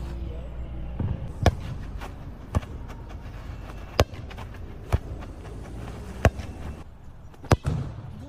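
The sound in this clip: A football being juggled, passed and kicked: several sharp, hollow thumps spaced unevenly a second or so apart, each a short loud impact over a low, steady background.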